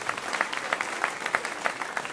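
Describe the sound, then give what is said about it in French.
An audience at a church gathering applauds, many hands clapping in a dense, lively patter that stays fairly even in loudness throughout. “Eh ben, applaudissez les parents qui motivent.”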